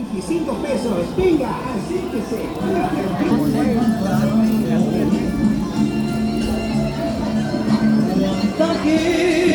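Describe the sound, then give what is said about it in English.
Bustling hubbub of a market in Mérida, Mexico: many overlapping voices chatter steadily, with scattered taps and knocks underneath. “this is the sound of a market in Mérida, Mexico.”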